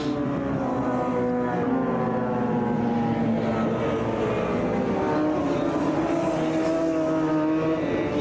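A racing motorcycle engine runs on a rain-hit circuit, giving a loud, steady drone with strong layered harmonics that holds for the whole stretch.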